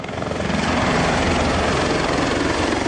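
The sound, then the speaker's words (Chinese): Several army helicopters prepare to take off for a basic flight check on a cold, windy day. Their rotors and engines make a continuous heavy roar with a steady low thrum and no voices. “多架直升机蓄势待发，即将展开一场基础飞行考核。在塔台统一指挥下，营连主官带头驾驶战鹰腾空而起”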